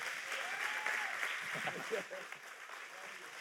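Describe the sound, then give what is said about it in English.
A church audience applauds to welcome a pastor coming up to preach, with steady sustained clapping mixed with cheering voices. “can we stand and can we welcome Pastor PJ this morning as he comes to preach the Word of God? Come on, let's give it up for him.”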